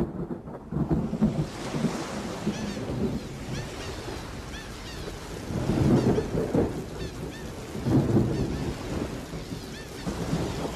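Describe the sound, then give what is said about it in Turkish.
Rain falls as a steady, dense hiss while thunder rumbles low beneath it, swelling into a few heavier rolling surges before easing back, with no voices. “Çok ıslanmışsın. Üşüteceksin. Yağmurda yıkanmak çok güzel.”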